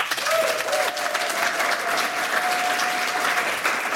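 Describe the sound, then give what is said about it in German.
Applause from the studio audience of an evening talk show: steady, dense clapping that holds at an even, loud level throughout without pause. “Wie jeden Abend auch unter den Augen eines sehr, sehr sympathischen Publikums, das folgendermaßen klingt.”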